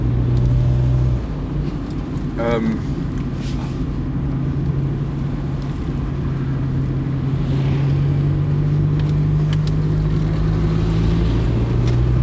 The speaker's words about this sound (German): Deshalb muss ich euch schon wieder mit Nebengeräuschen nerven, weil ich bei offenem Fenster fahre.